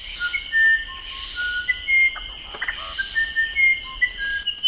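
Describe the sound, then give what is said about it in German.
Song of the musician wren, a small yellow-red Amazon songbird. Clear, pure whistled notes at varying pitches recur throughout, over a steady high insect-like hiss. “Der kleine Vogel hat leuchtendes, gelb-rotes Gefieder, doch berühmt ist er vor allem für seinen Gesang.”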